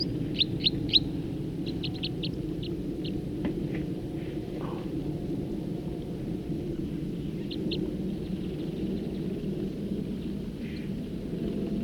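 A songbird gives quick runs of high, thin chirps early on and a couple more later, all set over a constant low, rumbling background.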